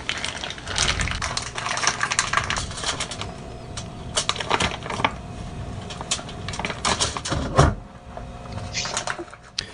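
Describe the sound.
Knife cutting Boursin cheese into small chunks, heard as many light, sharp clicks and taps in an uneven rhythm.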